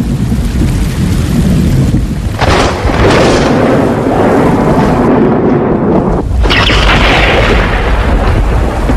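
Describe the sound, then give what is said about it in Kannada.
Thunder rumbles during heavy rain. A loud, dense roar of downpour runs nearly unbroken, with deep booming rumbles beneath it and no voices. “ಮಳೆ ಜಾಸ್ತಿ ಆಗ್ತಾ ಇದೆ, ಮಿಂಚು ಗುಡುಗು ಕೇಳಿಸ್ತಾ ಇದೆ, ಸಿಡ್ಲು ಹೊಡೆಯೋ ಸಾಧ್ಯತೆ ಕೂಡ ಇದೆ.”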